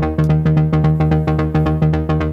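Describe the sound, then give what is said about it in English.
An OB-6 synthesizer plays a fast 16th-note pattern with 54% swing, using two oscillators and a sub-oscillator. A loud, buzzy, harmonically rich low tone pulses in a rapid, steady, slightly lilting stream of many notes. “This is a classic 16th note rhythm. I give a 54% swing for the 16th.”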